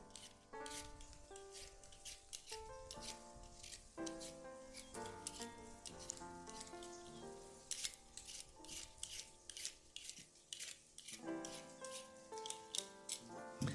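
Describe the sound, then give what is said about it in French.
Vegetables are peeled by hand in many quick, rasping scraping strokes with an uneven rhythm, fairly faint throughout. “Voilà, je continue d'éplucher.”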